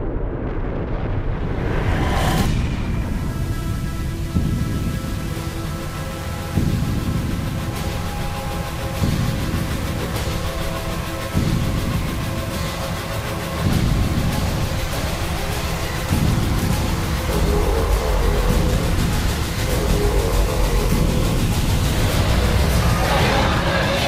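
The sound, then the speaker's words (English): The ending of a trailer playing: a loud, sustained roaring rumble with layered droning tones and periodic heavy surges, continuous throughout. “All right, so that's the trailer. We almost missed the ending of that.”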